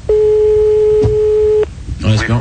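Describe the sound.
A steady telephone line tone sounds for about one and a half seconds as a phone call is placed, with a click partway through and another click as it stops. A voice then starts talking.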